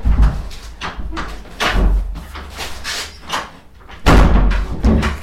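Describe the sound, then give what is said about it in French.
A stiff office door in a psychoanalyst's consulting room is worked shut with a few scraping, rattling thumps, ending in a heavier thud near the close. “Voilà, il n'y a que le psychanalyste qui peut fermer la porte de son cabinet.”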